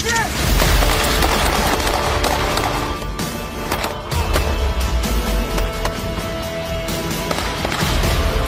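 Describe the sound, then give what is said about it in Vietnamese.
Gunfire from soldiers firing as they advance through narrow streets in a video: dense, rapid cracks and bursts run continuously and loudly from start to end. “Những người lính tinh nhuệ vừa bắn, vừa tiến lên trên những con đường hẹp.”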